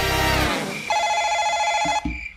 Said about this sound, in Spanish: Ay, hombre, a ver quién llama, pero todo el mundo le dio por llamar.